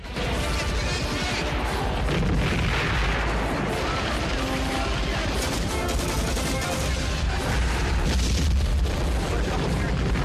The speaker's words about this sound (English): Rockets and machine guns from the choppers lash the village.